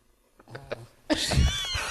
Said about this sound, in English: is that picking her up? Because that's amazing. It might. The snorting. It's a pug, so probably.